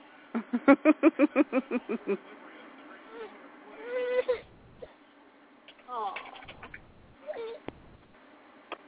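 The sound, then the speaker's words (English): A baby girl fusses and whimpers, starting with a quick run of short rhythmic whines, then a few longer wavering whimpers that rise and fall in pitch, with pauses between. “You're okay, fussy baby.”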